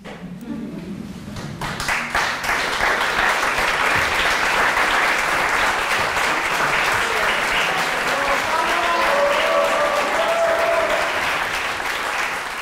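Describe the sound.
Dense, sustained applause from an audience after a Shakespeare evening's recitation with baritone and clavichord. Many hands clap steadily and evenly for about twelve seconds, building quickly at the start and staying full and loud throughout.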